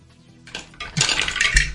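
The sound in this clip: Dice clattering as several ten-sided dice are rolled for a tabletop role-playing game, a dry rattle of many small clicks that builds into a busier tumbling burst toward the end, heard alone.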